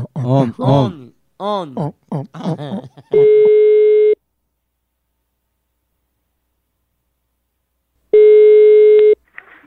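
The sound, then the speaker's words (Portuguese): Ringback tone of a telephone call being placed: after a stretch of speech, two steady, even electronic rings of about a second each sound, separated by a long silence. “Eu vou ligar agora pra Nagui.”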